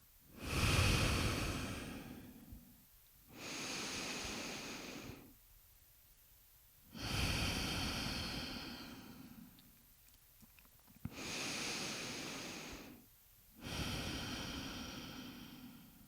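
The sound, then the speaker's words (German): Slow breathing exercise with deep inhales, brief held pauses and long exhales: several even, airy breath cycles separated by short silences, soft and unhurried throughout. “Kurz halten. Und ausatmen, Altes abgeben. Mach das noch ein paar Mal.”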